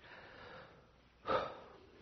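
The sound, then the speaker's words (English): A single deep breath taken during a church sermon: a brief, breathy rush of air that swells quickly and fades, faint against a quiet background. “So let's take a deep breath, and then you'll see why I said all of that.”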